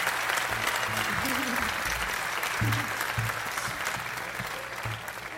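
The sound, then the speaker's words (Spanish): Applause from an audience fills the whole stretch as a dense, steady wash of clapping at an even loudness, with some low tones faintly underneath. “¡Aplauso bonito!”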